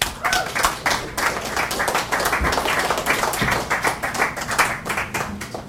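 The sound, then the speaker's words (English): Loud, dense applause from an audience at a poetry reading, many hands clapping in a steady, continuous patter throughout. “But my heartfelt thanks to all of you for coming out. Give yourselves a hand.”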